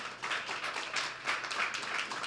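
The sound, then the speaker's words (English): A church audience applauds with a thick wash of many hands clapping that swells and dips a few times in loudness. No one speaks over it. “You could clap.”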